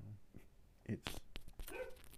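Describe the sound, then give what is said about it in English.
Dog barking in the background, heard as a few short, sharp barks of moderate loudness over a steady low noise floor. “My apologies if you can hear my dog in the background.”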